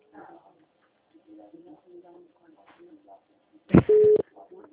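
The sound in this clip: A telephone ringing tone sounds on an outgoing call as one short, steady, loud burst, following casual talk.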